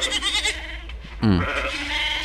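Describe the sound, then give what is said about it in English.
Goats bleat in wavering, nasal calls: fainter ones at the start, then a loud bleat about halfway through that falls in pitch and trails off. “So she's kind of wondering what the goats, what the advice goats have to say about this. So we will turn to them and ask what their take is on it.”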